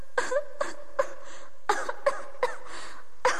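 A series of short, harsh coughs, about eight bursts at uneven intervals. Each is sharp and throaty and sits over a quiet background.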